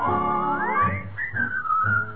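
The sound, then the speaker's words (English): A person whistles a tune over instrumental backing, with a rising glide into sustained, wavering melodic notes while low accompaniment pulses underneath. “Whistle all the day, you will find the sun is shining while you whistle your blues away.”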